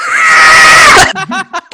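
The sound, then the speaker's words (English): A loud, sustained scream holds for about a second, then abruptly cuts out. A few broken, choppy fragments of voice follow. “you cut out during that scream.”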